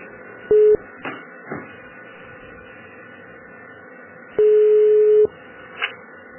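Telephone keypad tones dialing an option in a hospital-supply company's phone menu: one short beep, then after a pause a longer steady beep, over faint line hiss.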